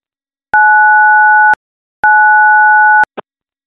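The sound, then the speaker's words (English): Telephone keypad tones from the pound key pressed twice: two steady one-second dual-pitch beeps separated by a short gap, followed by a tiny click, with nothing else around them. “when you pick up the phone and press the pound key twice”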